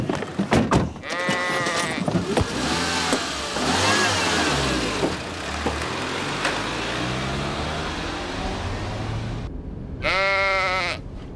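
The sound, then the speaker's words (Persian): A sheep bleats twice, once near the start and once at the end. Both are loud, quavering cries over a steady engine rumble that runs through the whole clip. “بلش بابا، گوسفنده.”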